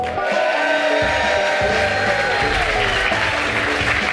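Applause from a live studio audience at a church-sponsored conference in Tacoma, Washington: dense, steady clapping mixed with crowd noise, holding at an even, full level for the whole stretch with no speech over it.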